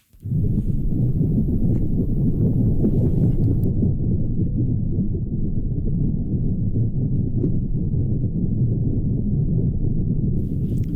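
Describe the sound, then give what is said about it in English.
Underwater sound of a gray seal eating small fish close to the ocean floor off Sable Island, Nova Scotia: a dense, steady low crackling and rumbling that starts abruptly and continues without a break, with no voices. “that is the sound of a gray seal eating small fish close to the ocean floor off Sable Island, Nova Scotia. It's from an underwater video.”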